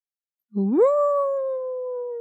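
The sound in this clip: A man softly howling like a wolf, one sustained voiced howl that rises quickly at the start, then holds a steady tone and sags slightly toward the end, fairly loud and heard alone without talk.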